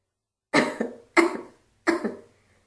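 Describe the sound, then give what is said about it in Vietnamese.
Several loud coughs arrive in three separate bursts. Each is a harsh doubled hack, a strong first cough and a weaker second, with short silences between the bursts. “Vài tiếng ho mạnh kinh động đến Hứa Bội Dung.”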